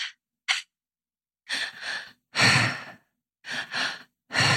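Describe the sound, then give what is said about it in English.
Breathwork breathing done in cycles of two quick inhales, into the belly and then up into the chest, followed by a longer, airy exhale out the mouth, repeated steadily with no talking. “So we breathe twice in and one out. And it's into the belly, up into the chest, and out in the mouth.”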